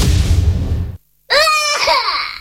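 A baby fusses with a wavering, crying-like wail of strained harmonic notes. It starts abruptly after a brief silence and runs on loudly to the end, preceded by a low, rumbling background.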